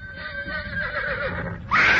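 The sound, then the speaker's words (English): A horse neighs and shies as a rider mounts and something slithers from the bush under its forelegs: a sustained, wavering whinny with bright harmonics that ends in a sudden, louder, higher-pitched burst. “The horse shied.”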